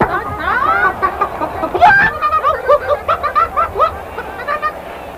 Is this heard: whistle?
no